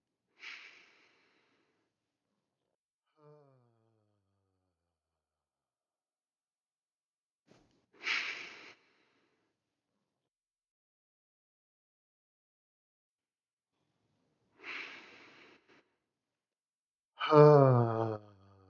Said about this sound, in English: Let's all together take a pause here to feel what we feel. Three breaths together.